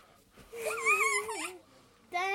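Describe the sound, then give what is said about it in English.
A dog vocalizing in two drawn-out, wavering whines or yelps, the first long and bending in pitch, the second starting sharply at the end after a short pause. “That's our dog barking.”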